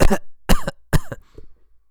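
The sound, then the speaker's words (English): A man coughs three times in sharp, loud bursts spaced about half a second apart, then gives a fainter, shorter rasp. “No, he didn't sneeze. He coughed.”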